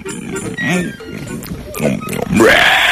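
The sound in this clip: Pig grunting: a few rough, throaty grunts, then a louder squeal that rises in pitch near the end, with voices mixed in underneath.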